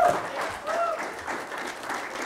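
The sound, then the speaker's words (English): An audience gives a big round of applause for a man at a Bible teaching talk. Dense, steady clapping holds at an even level for the whole stretch. “That's a big round of applause for the man.”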